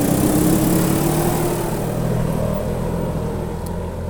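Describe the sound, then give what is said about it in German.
Engine noise from a vehicle driving past on a mountain hay meadow during hay-making: a steady, loud, low rumble with a buzzing edge that holds throughout and eases only slightly toward the end. “Jetzt fährt gerade jemand vorbei hier.”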